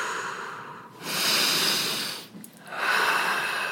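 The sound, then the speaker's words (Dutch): Deep, full inhaling and exhaling during a guided breathing exercise: long, airy, hissing breaths follow one another in a slow rhythm, each swelling and fading, with no talk over them. “Maar blijf gewoon diep diep en volledig inademen, eh, los.”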